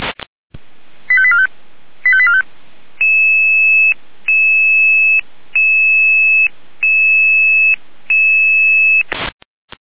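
An emergency dispatch alerting tone for an ambulance call-out, loud and alone: a sharp opening burst and two quick chirping beep clusters, then five long, steady two-tone beeps in an even rhythm, ending with a short burst.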